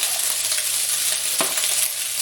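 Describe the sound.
Rice fries in oil in a pan with a loud, steady sizzle and one brief scrape of stirring partway through, no talk.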